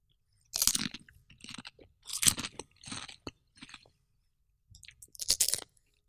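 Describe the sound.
Crunchy chewing of a viral TikTok croissant filled with Doritos and crème fraîche: a run of crisp bites and chews with a pause partway through, fairly faint and without talk.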